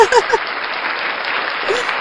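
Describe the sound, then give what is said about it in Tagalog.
Applause at a motivational talk, dense and steady clapping that holds for about two seconds, with a brief voice at the very start. “Pinapalakpak ko ang sarili ko, no?”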